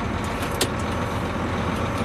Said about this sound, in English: Okay, let's go for a little drive. Because you have to realize that when you're in a big vehicle like this, you can't be in a hurry.